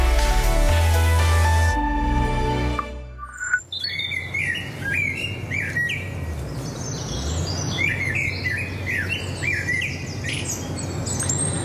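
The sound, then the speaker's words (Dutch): Birdsong from a blackbird, robin and woodpecker starts after a few seconds of denser, louder sound. Many quick chirps and whistled phrases then overlap continuously over a soft background hiss. “In haar opname horen we een trio van merel, roodborst en specht.”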